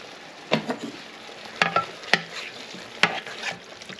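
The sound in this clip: Veggie korma is stirred in a pan, with a few scraping knocks of the utensil against the pan over a faint, steady sizzle.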